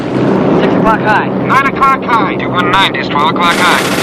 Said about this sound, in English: The German planes form mutual arcs of fire. The German pack breaks as they dart off in all directions and disappear into the clouds.